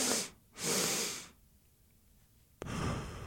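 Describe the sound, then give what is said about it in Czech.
Two quick, hissing inhales through the nose form a physiological sigh, the first short and the second longer; after a quiet pause a long breathy exhale begins. “fyziologické povzdechnutí si. A funguje to nějak takhle. Já se na dvakrát nadechnu nosem”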